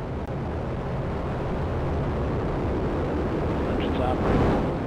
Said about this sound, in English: And liftoff of the first United Launch Alliance Vulcan rocket, launching a new era in spaceflight to the moon and beyond.